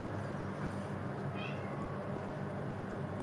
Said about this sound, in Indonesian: Apa sih kucing? Udah dikasih makan belum sih mami?